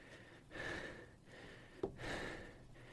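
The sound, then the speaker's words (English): Heavy breathing directly into a microphone, two slow, drawn-out breaths in a row with a short click between them, quiet and close with no talking. “Does that creep you out when I breathe?”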